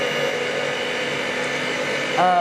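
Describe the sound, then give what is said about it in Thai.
An electric blender blends ingredients with a steady, whirring motor drone that holds an even pitch, growing slightly louder near the end. “ก็คือปั่นค่ะใช้เครื่องปั่น โอเค นะคะ ตอนนี้ก็จะเหลืออยู่2ส่วนคือ8กับ9เนาะ ก็ปั่นได้เลย”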